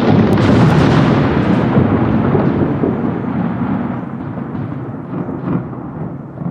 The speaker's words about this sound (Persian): آنها از فرمان پروردگارشان سر باز زدند و سرانجام جلوی چشمانشان صاعقه مرگبار گرفتارشان کرد